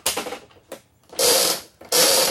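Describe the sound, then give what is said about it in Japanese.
Ratcheting clicks of a gachapon capsule toy machine at home as its crank is turned, in four loud, crisp bursts of rapid clicking separated by brief pauses. “実は私、うちにガチャガチャの機械があるんですよ実はだから本当に、あ、ガチャガチャ回すのには慣れてるんですけど”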